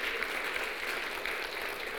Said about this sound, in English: Let's applaud our deacons. Let's applaud our deacons.